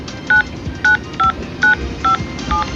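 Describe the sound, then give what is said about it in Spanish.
Six telephone keypad dialing tones as a number is entered on a phone message-retrieval line. The short, evenly spaced beeps sit over a steady background hiss. “Ingrese el número del cual desea recuperar el mensaje.”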